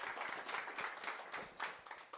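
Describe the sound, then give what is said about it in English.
Audience applause for a participant at a CPR training demonstration. A steady, fairly faint patter of many hands clapping continues throughout. “Can you give her a round of applause? That's tough work. Good job.”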